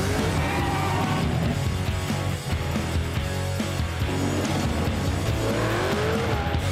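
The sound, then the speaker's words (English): A car doing burnouts, its tires squealing and skidding over a loud, unbroken engine roar that holds steady, the shrill rubber screech rising and wavering above the dense mechanical din throughout. “What is this? Doing burnouts.”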